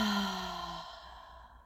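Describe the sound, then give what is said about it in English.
Breathing out through the throat: a long, audible exhale that opens with a faint voiced, hum-like tone, then thins into a soft breathy hiss and tapers off. “Breathe out through your throat.”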